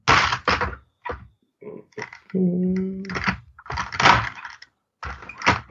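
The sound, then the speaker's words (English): Packing tape being cut on a toy's packaging gives a few short scraping and tearing bursts, with a brief, steady, tonal screech partway through. “Just struggling to cut through tape at the moment. We'll get there.”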